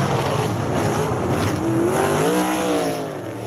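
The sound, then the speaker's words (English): A dirt track race car engine roars loudly and steadily. Its harmonic whine rises in pitch partway through as the car accelerates, and no voices are heard over it. “Now, you know I'm a race fan, and I love dirt track racing.”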